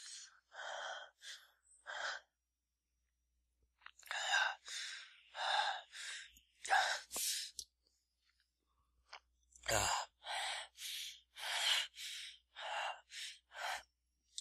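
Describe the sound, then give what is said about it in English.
Ragged, heavy breathing close to the ear: many harsh, gasping breaths in uneven bursts, split by short pauses and one longer silence, with no talk. “Feel my breath ragged against your ear.”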